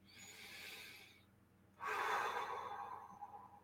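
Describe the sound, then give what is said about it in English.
A single deep breath taken during a guided prayer and meditation. A soft, drawn-in inhale is followed by a fuller, louder, airy exhale that trails off gradually. “Take a breath.”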